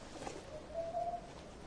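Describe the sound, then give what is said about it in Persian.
Pigeons cooing softly on a still, quiet day among motionless trees, a faint, low, drawn-out call rising just above a steady background hiss, with no voices. “برگای درخت ها تکون نمیخورن، همه ساکتن، فقط کبوتر ها آواز میخونن.”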